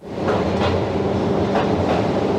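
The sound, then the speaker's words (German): A small rail car rumbles slowly down an inclined tunnel to a depth of 700 metres, a loud, steady low roar with faint rhythmic clatter running throughout and no voices. “Langsam fährt die kleine Bahn schräg hinunter in den Tunnel, bis in eine Tiefe von 700 Metern.”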